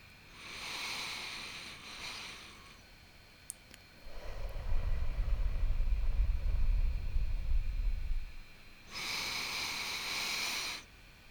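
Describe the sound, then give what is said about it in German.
Slow, deep breathing during a guided meditation, in through the nose and out through the mouth. An airy, hissing breath gives way to a long, low rushing exhale, then another hissy breath, all unhurried and without speech. “nimm drei tiefe Atemzüge durch die Nase ein und durch den Mund wieder aus”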